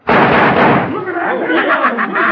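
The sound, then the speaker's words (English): A gunshot fired at a poker chip: one loud, sudden blast at the start with a rumbling tail, followed by people talking. “So you put the chip on the back of your hand and you're going to shoot it before it hits the floor like I did.”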